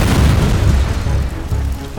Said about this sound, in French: À peine a-t-elle passé le portail de l'ambassade que la bombe se déclenche.